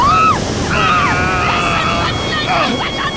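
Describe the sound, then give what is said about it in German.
A wave crashes over a ship in a storm at sea, a loud continuous roaring wash with high whistling tones drifting above it. “Haltet euch fest! Die Welle bricht über uns herein!”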